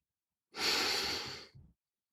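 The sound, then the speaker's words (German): A single long, airy breath from a guided breathing exercise swells quickly and fades over about a second, then ends in a brief, softer puff of breath. No voices are heard. “Lass uns gemeinsam einatmen. ausatmen.”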